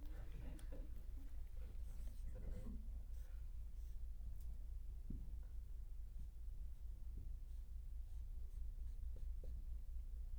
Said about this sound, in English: You guys remember the story of Jericho? Here, I'll draw it for you.